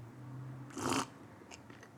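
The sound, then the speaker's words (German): A single quick sip of coffee, a faint breathy slurp lasting a fraction of a second against quiet background hum, followed by a couple of tiny soft clicks. “mal eben kurz einen Schluck Kaffee nehmen”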